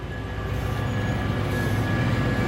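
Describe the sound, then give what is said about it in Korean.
A train arriving in Vienna produces a steady, loud rumble with a faint high whine, continuous and unbroken, with no voices. “기차는 그 남자의 목적지인 비엔나에 다다랐다.”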